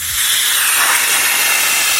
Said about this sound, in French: Alors moi, ça serait un train qui freine, qui arrive en gare. Effectivement.